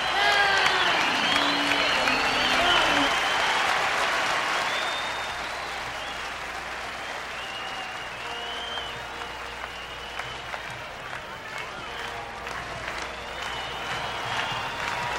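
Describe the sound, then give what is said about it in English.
Audience applause and crowd noise at a live concert. It is loud and dense for the first few seconds with voices mixed in, then settles into steadier, quieter clapping that continues to the end. “Direct from Puerto Rico, how about a very, very big round of applause”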